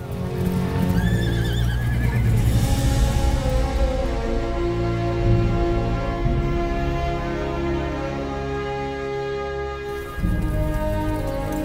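A horse ridden across the steppe lets out a loud, wavering whinny near the start, then steady sustained tones carry on beneath for the rest of the stretch.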